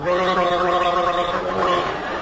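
A person gargles fluid in a continuous, throaty bubbling gurgle with a voiced buzzing tone. It holds steady and fairly loud for a couple of seconds.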